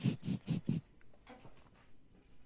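A cat makes four short, quick calls in an even rhythm, quiet overall, followed by fainter scattered sounds.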